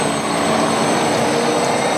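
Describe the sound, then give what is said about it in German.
An electric bus drives through the streets of Vienna, giving a steady, loud rumble with a thin, constant electric whine over it. No voices are heard. “So klingt es, wenn ein Elektrobus durch die Wiener Straßen fährt.”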